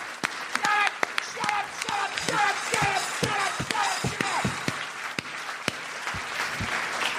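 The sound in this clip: An audience applauds at a comedy show with many sharp, irregular claps that build into a sustained round, while voices talk over the clapping.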